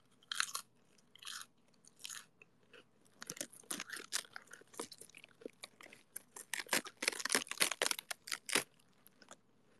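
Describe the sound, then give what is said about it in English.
Crisp tearing and crunching of lettuce leaves being ripped apart: many irregular crackly bursts of varying loudness, sparse at first and then a dense flurry toward the end, with no voices. “Can you guys hear the lettuce ripping?”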